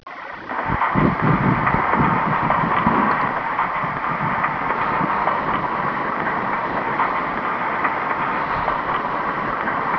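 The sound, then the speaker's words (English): A trolley car starting up gives a continuous, fairly loud mechanical rumble with rattling, clattering texture. It holds steady from start to finish, with no voices. “Door close. Next car, please. Trolley start up.”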